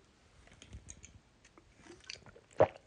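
Soft wet swallowing and mouth noises as someone downs the last of an alcoholic drink from a can in one go, a few quiet gulps with one sharper, louder gulp near the end.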